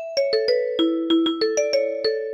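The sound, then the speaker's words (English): Vibraphone tones struck with mallets in a quick, uneven run of bright, bell-like notes at varying pitches, each one ringing on and overlapping the next. “Which one sounds better? Vibraphone.”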